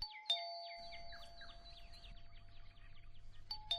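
A doorbell chime rings one morning, with sharp bright strikes at the start and end and a run of quick, falling, chirp-like notes in between, over a low steady hum.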